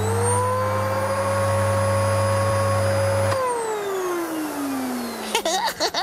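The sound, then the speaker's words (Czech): A household vacuum cleaner runs with a steady, loud motor whine and hum for about three seconds. Then it is switched off and the motor pitch slides steadily downward as it winds down. “Vysavač. Ten používá přece každá paní uklízečka.”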